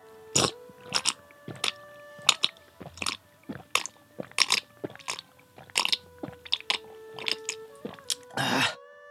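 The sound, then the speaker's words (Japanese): Someone eats bird's nest soup: many short, crisp chewing and biting sounds come in an irregular rhythm, with a longer rougher burst at the end. No one speaks. “これなんとツバメの巣のスープのようですね。じゃあちょっと早速いただいてみましょうかね。いただきます。”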